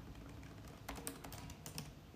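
Faint keystrokes on a Spanish computer keyboard come in a quick, uneven run of light clicks over a quiet background.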